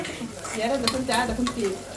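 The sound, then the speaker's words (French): A Sudanese dish of onions, meat, tomatoes and okra being stirred in a pan for an iftar meal: a spoon scrapes and turns the food over a low, steady sizzle. “Alors, on coupe les oignons, la viande, les tomates, les okras. On mélange.”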